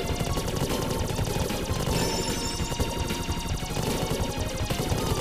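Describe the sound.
Rapid gunfire from a video game, a dense, unbroken stream of many shots that holds an even, loud level throughout with no talk.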